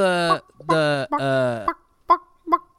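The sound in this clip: A song sung in squawking chicken voices: three long, warbling, honk-like notes, then two short squawks, loud and with no other sound.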